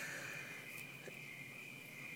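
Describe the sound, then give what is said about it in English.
Crickets chirp on an evening under the stars in a yard with palm trees. A steady, high-pitched trill holds unbroken and even throughout, with no voices. “these evenings when it's just me with the stars and the crickets”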